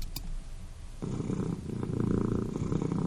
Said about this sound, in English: That's our cat.